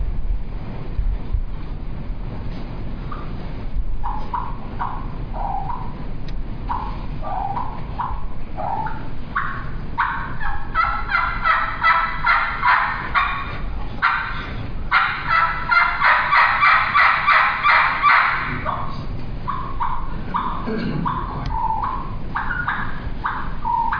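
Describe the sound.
Clucks and purrs on a turkey call, played by a champion caller at a calling contest demonstration: scattered sharp clucks, then rolling purrs and a quick rhythmic series of clucks, fairly loud with no talk.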